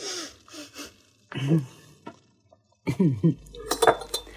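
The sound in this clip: Drinking glasses clink together during a toast over whiskey: a few bright, ringing taps near the end, with people talking before and around them.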